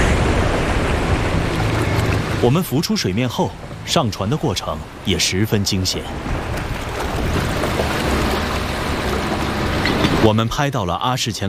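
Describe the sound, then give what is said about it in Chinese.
Strong wind and heavy waves at sea during a storm, with a loud steady roar of wind and surf throughout and a voice speaking over it. “当我们在水下拍摄时，水面上的团队遇到了巨大的风浪。”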